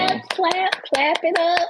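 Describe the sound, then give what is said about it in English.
Hand claps ring out as a series of sharp, separate smacks mixed in with a voice speaking over them. “clap it up. Go ahead.”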